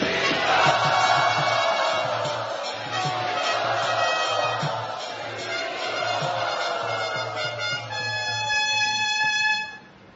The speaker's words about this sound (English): We can't really welcome you, but we can offer our gratitude to you on this day by loudly chanting.